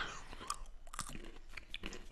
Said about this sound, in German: Also ist eine schöne, fruchtige Nuss. Ja, dann lasse ich die jetzt mal knacken